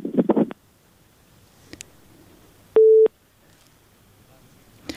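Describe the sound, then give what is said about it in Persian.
A single short, steady beep tone sounds on a phone line after a listener's call to a call-in program is disconnected. A brief burst of voice comes first, then faint low noise surrounds the tone. “متاسفانه که شنونده ما تماسشان قطع شد.”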